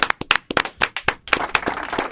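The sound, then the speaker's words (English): A lone person clapping their hands in a room full of people and microphones: crisp, separate claps at first, then faster, closer-spaced clapping toward the end. “Why would I be the only one clapping here?”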